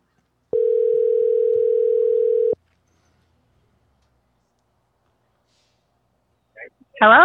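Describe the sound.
A telephone tone while calling someone: one flat, steady buzzing note held for about two seconds and cut off sharply, then silence before a voice begins at the very end.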